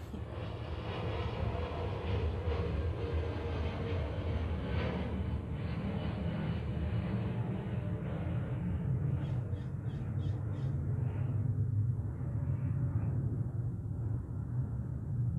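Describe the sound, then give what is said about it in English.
An aircraft taking off over a museum in the early morning: a loud, steady, broad roar sustained throughout, its hiss thinning toward the end, with brief crow caws heard partway through. “This is supposed to be a takeoff right here over the museum.”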